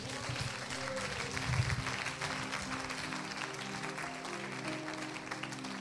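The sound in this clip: An audience applauds during a church service with steady, moderate clapping throughout, and voices and a sustained tone sound beneath it.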